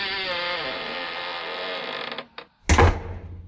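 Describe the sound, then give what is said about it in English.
A key turns in a door lock and the door creaks open with a long, wavering, fairly loud groan; a few short clicks and a heavier bump are also heard. “open it then. I'm trying, I'm trying. We'll get the key. I am using the key.”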